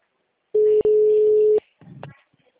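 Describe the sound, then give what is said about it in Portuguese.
A telephone ringback tone signals a call ringing on the line: one steady, mid-pitched burst lasting about a second, with a brief break near its start, followed by a short, fainter stretch of sound. “O meu tá chamando normal”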